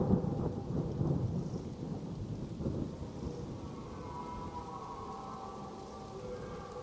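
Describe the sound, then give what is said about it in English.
Rainstorm with thunder and water dripping through trees and branches: a low rolling rumble in the first seconds gives way to a steady, faint hiss of rain, with no voices. “It has become somewhat stormy here. The water seems to drip through the trees, branches, straight onto your heads.”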